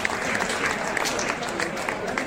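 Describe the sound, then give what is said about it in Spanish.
Applause from the audience at a metal concert and association launch party: a steady, dense wash of many hands clapping, continuous and moderately loud, with a few sharper claps standing out. “o sea que un abrazo y un aplauso grande”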